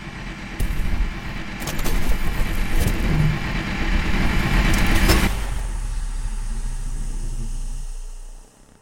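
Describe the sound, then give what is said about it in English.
A backup generator starts up and whirs in a steady, loud mechanical hum for several seconds, then its motor noise fades and stops near the end. “While I may not have enough fuel for space travel, I do have enough to get this backup generator whirring.”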